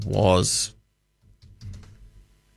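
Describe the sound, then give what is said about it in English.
Quick typing on a computer keyboard as a question is entered: a brief voice sound, a short pause, then a rapid, steady clatter of keys. “let me just type this into AI.”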